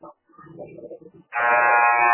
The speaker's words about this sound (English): Second buzzer sounds.